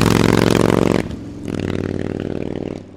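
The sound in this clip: Harley-Davidson motorcycle engine revving: a loud, throaty rev for about a second, a brief drop, then a second steadier rev that fades out at the end.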